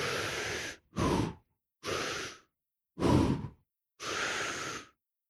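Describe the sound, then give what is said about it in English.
Deep breathing while walking, filling the lungs fully and then letting about half the air out: five loud, airy breaths, each about half a second long, separated by short silences. “But as you're walking, breathe in very deeply, you know, fill up the lungs, full capacity, fill up the gut, fill up the belly, and then let that air about halfway out as you're walking.”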